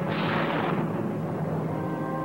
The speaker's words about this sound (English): Explosions erupt on the ship they left a few minutes before.